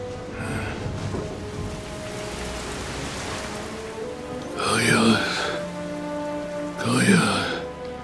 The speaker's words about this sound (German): Ohne dass ein Tropfenfall vorhergegangen wäre, ist der Regen herniedergebrochen.